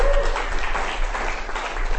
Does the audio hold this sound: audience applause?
yes